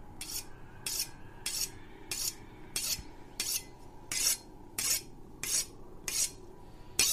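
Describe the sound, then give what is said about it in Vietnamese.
Knife being sharpened, with metal grating against metal: many regular rasping strokes, roughly one every 0.7 seconds, fairly quiet and steady in rhythm. “là âm thanh mài dao. Tiếng mài dao ken két, ken két.”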